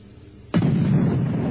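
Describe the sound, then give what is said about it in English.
An explosion sound effect breaks in after a quiet moment with a sudden loud blast, then rolls on as a sustained deep, rumbling roar until the end. “I do. Had an explosion.”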